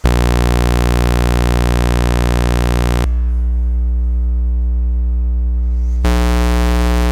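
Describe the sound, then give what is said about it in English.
Minimoog synthesizer oscillators play saw, triangle and square waveforms in turn, each a loud, steady held tone at one pitch lasting about three seconds, with the buzzy sawtooth giving way to a mellower triangle and then a hollow square. “So we'll have a saw, triangle, square, and then some noise.”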